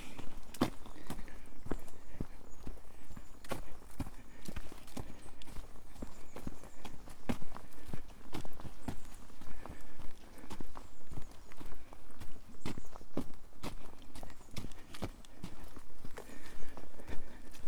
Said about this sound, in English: Walking through woods between Bucks Mills and Clovelly.